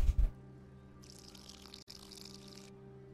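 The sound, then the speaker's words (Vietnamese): Cooking oil poured into a pan: a couple of low thumps, then a soft, even hiss of pouring that lasts under two seconds over a steady low hum. “Để tôi lấy cái dầu ăn đã. Đây rồi. Đảo lên một tí.”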